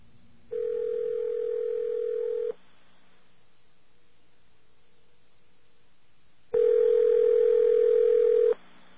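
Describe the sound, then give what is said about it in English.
A steady telephone dial tone on a landline plays as two sustained, even bursts of about two seconds each, separated by a long gap of near silence, with no voices. “Let's get a dial tone.”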